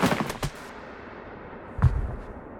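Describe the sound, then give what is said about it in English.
A volley of rifle shots from a police firing squad: a quick cluster of sharp, loud cracks at the start, then a quieter gap and one more sharp burst with a brief ringing tail. “as a row of police sharpshooters leveled their guns with Charlie's tired head. Standing! Load! Aim! Fire!”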